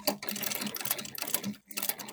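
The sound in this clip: A pedal-powered sewing machine stitches in a rapid, even clatter of needle strokes, fairly faint, with one brief pause before the stitching resumes.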